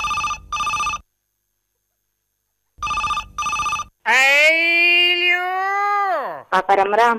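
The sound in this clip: A telephone bell rings in two pairs of short trilling bursts with a silent gap between them, then a drawn-out voice answers.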